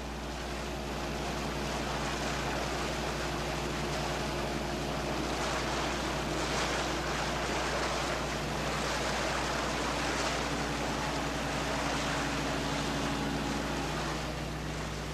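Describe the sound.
Inflatable dinghies ferry women and children across open water toward an icebreaker, with a steady rush of motor drone and water wash over a low hum that stays unbroken throughout.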